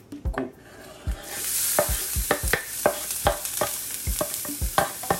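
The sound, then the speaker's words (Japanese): Onions fry in hot oil in a heated pot, the first step of making fried rice, with a continuous sizzle and many sharp clacks from a utensil stirring them in an irregular rhythm. “大体お鍋が温まってきたんで油を入れたところで早速作っていきます一番最初に玉ねぎ入れますよ”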